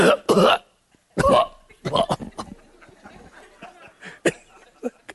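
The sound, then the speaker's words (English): A man's voice imitates the rattling cough of a dying man, the film-style death cough: a few harsh, breathy bursts at the start, then a looser cluster of softer throaty catches and gasps. A few fainter spurts follow near the end. “in every Hollywood movie, you got to have a cough before you die.”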